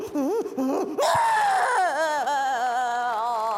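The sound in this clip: A child cries loudly in continuous wailing sobs whose pitch swoops up and down, with a sharper, higher burst of crying near the middle.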